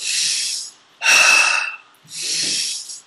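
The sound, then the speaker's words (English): Three forceful breaths in a guided breathing exercise, strong inhales released into exhales, heard as airy, hissing rushes of air separated by short pauses, the middle one loudest and sharpest, with no speech. “You focus on the inhale being strong, and then you just let it go. Inhale, let it go. Inhale, let it go.”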